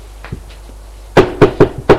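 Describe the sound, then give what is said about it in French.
Knocking on a bedroom door: a few faint taps, then four loud, sharp raps in an uneven, quick rhythm. “on frappe à la chambre de Philippe pour lui dire que le petit déjeuner est pris.”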